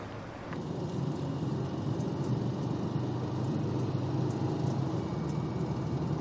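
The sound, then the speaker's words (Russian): Steady road rumble from a car being driven, a broad even hum of engine and tyre noise that holds at a constant level throughout, with no talking. “Сандра едет за рулем.”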